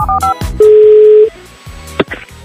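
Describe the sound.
Telephone dialing tones sound as a call is placed. A few short two-tone beeps are followed by a longer steady tone, then a brief beep, with low background sound beneath.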